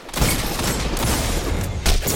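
Dense, rapid gunfire in the Destiny 2 multiplayer shooter, a continuous loud crackle of overlapping shots with two heavier impacts standing out, with no talk over it.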